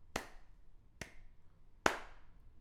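One person claps three separate times at slow, spaced intervals, each a quiet, crisp smack standing alone against near silence.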